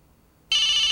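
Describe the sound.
A cell phone bursts into ringing halfway through after near silence, a loud, steady, high-pitched electronic ring that continues unbroken to the end.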